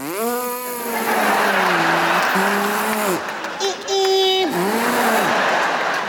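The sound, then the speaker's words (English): A voice imitates a Prius hybrid car accelerating onto a freeway with loud, buzzy sustained tones whose pitch glides, wavers and steps up and down, breaking off briefly midway before resuming. “We got rid of one of the big giant SUVs and got a Prius. I don't know what you're laughing at. It's a great vehicle. You jump on the freeway and putch,”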